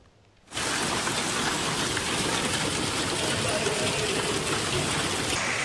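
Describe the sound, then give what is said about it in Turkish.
Heavy rain pours down during a violent storm with walnut-sized hail in Arsuz, Hatay, Turkey, a dense, loud, steady hiss and roar that begins abruptly after a short quiet moment and continues without letup. “Bardaktan boşanırcasına yağdı.”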